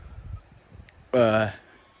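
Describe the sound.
A sheep bleats once, a single loud, wavering, nasal cry of about half a second over a quiet background.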